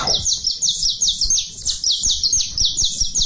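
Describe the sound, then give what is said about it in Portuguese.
Saffron finch singing: a rapid, continuous run of many bright, high chirping notes, each a quick sliding whistle, repeated steadily with no voices. “Tá bom, canarinho, tá feliz o canário da terra.”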